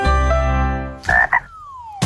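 Frog croaking: a long, deep, buzzing croak, then a couple of short rasping calls and a thin whistle that slides down in pitch, ending with another brief burst.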